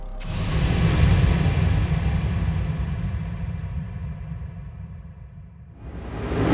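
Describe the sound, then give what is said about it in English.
Car engine rumble from a driving sound effect in an audio drama, a steady low drone that gradually eases and thins, then swells louder again at the very end. “Sorry, I'm driving and monitoring the computer at the same time.”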